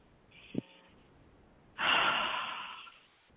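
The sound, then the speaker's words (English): A deep breath taken alone: a short sharp sniff comes first, then after a pause a long, airy, fairly loud breath swells and fades over about a second and a half. “Deep breath.”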